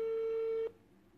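Telephone busy signal after the other side hung up: a single steady, mid-pitched tone holds for about two-thirds of a second, then cuts off abruptly, leaving faint hiss.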